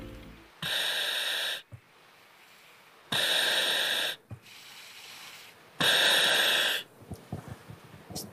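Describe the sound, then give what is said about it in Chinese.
Firefighter breathing through a self-contained breathing apparatus: three long, loud, hissing inhalations at regular intervals, separated by quieter exhales and faint clicks of the valve. “我只想给大家听一个声音，就是他现在戴上这个呼吸机时候的声音，我们来听一听啊。”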